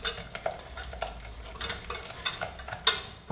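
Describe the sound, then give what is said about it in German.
Scraping stirring in a pot as four tablespoons of nutritional yeast flakes are mixed in after the pot is taken off the heat. Many short, uneven scrapes and clinks repeat throughout, with a faint sizzle underneath. “jetzt kommen die Hefeflocken rein. 4 Esslöffel. So, schön einrühren.”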